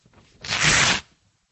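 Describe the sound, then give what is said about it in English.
A sheet of paper is torn in one continuous rip lasting about half a second, a dry, even rasp heard alone with no talk. “Tear means to be ripped into two or more pieces. This is a verb we use, for example, when you have a piece of paper and you do this.”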